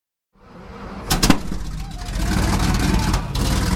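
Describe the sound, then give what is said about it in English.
Heavy engine rumble from a vintage Sherman tank driving down a Boston city street rises quickly from silence into a loud, steady, low drone, with a few sharp clanks early on. “You really can't sneak up on anyone driving a vintage Sherman tank down the streets of Boston.”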